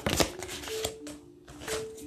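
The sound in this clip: Tarot cards drawn one by one from a deck during a reading, a few quiet crisp snaps and rustles of card stock with short pauses between them.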